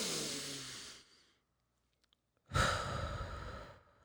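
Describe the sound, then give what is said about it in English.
A person takes a deep breath in and out: two long, airy breaths separated by a short, silent pause, the second louder and fuller than the first. “So let's take a deep breath. Oh, that felt good. Fuck it, let's do one more.”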